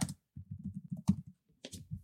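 Typing on a computer keyboard: quick runs of many soft, clicking keystrokes with brief pauses between them, faint and without talk.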